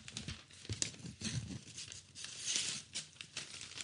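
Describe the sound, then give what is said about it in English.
A paper envelope is torn open, with quiet crinkling and a series of short ripping bursts of paper that come and go unevenly, with no talk over them. “Okay, let me get this envelope open here.”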